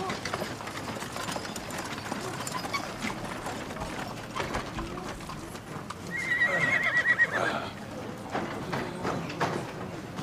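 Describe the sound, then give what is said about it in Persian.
A horse neighs at a caravanserai, the whinny rising clearly midway through steady clip-clopping hooves, with ratcheting, mechanical clicks and rattles underneath the whole time. “سیاوش به کاروان سرا میاد، اسبشو میبنده”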